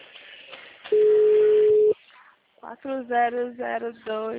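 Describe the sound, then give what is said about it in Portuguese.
A telephone ringback tone as an outgoing call waits to be answered: one steady, level beep lasting about a second, then a pause, followed by a person talking. “Esperando atender aqui, minha ligação.”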